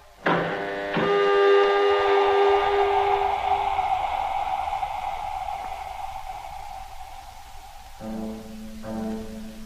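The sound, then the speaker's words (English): An airlock opening on a lunar craft: a sudden onset, then a long mechanical hum with a bright whistling whine that slowly fades over several seconds, followed by two lower humming bursts. “Okay, Control. We're all set. You may let us out now. Airlock opening.”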